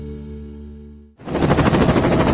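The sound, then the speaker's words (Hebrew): A helicopter in a toy commercial: a steady humming drone fades and cuts out, then loud, rushing, rapidly pulsing rotor noise takes over. “וואו, איזה מסוק ענק, כמה מתנות.”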